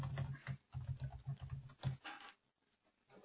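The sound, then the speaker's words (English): Soft keystrokes tap out a discount code on a computer keyboard in a quick, uneven run, pausing briefly before a few more faint taps. “I'm writing it into chat now.”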